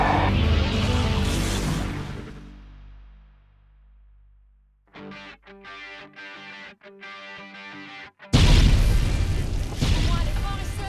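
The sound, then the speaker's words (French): An explosion aboard an animated space capsule adventure bursts with a deep, loud boom that rumbles away over about three seconds, followed by a quiet gap, a string of short choppy sounds, and another loud burst near the end. “Oh, c'est trop bien, une fois que c'est pas moi qui me fais exploser avec cette chose.”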